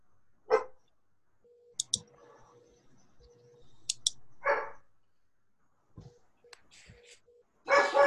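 A dog barks a few times, each bark short and sharp and separated by long quiet gaps. Faint clicks and a low hum sit between the barks.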